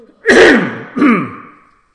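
Throat clearing by a man reading scripture aloud: two loud, harsh bursts of breath and rasp close together, the second shorter and softer, heard alone without talk.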